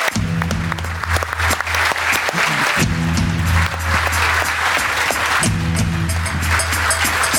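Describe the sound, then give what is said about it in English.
A live audience in Killarney applauds a special guest coming on stage, a loud, continuous spread of clapping that holds steady for about seven seconds. “If you could put your hands together, please, for an absolute legend, our special guest, Marc Ó Sé.”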